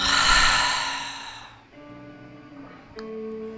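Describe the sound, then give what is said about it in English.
A deep breath is drawn in through the nose and let out as a loud, airy rush that fades over about a second and a half. Steady, soft background tones remain afterwards. “So let's take a deep breath in our nose. And let it go.”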